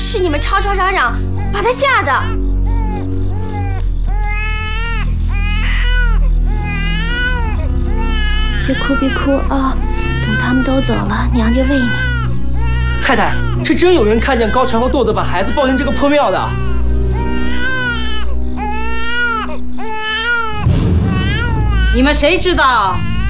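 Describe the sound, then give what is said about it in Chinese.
A hungry infant cries in a ruined temple, loud wavering wails repeating almost without pause under tense talk between adults. “你的孩子你不喂，让他哭成这样”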